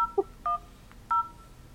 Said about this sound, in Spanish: yo voy a intentarlo ahora mismo y te voy a decir ahora lo que me pasa a mí cuando llamo yo por teléfono